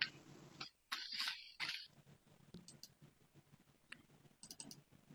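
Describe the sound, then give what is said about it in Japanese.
Tarot cards being shuffled by hand, heard as faint, quick clicks and papery rustles. A few brighter bursts stand out near the start. “シャッフルは終わりました。”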